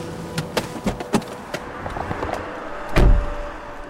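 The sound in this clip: Someone gets out of a parked car on a quiet overnight-parking stretch: a few light clicks and rustles over a steady hum, then a heavy door thud near the end.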